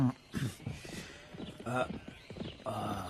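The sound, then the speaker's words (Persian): Hooves of several horses carrying approaching riders clip-clop beneath steady talk, with brief louder bursts between the voices. “چندین سوار به ما نزدیک میشوند، گمانم که نزدیکان تو باشند.”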